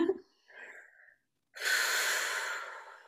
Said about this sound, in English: Take a deep breath in.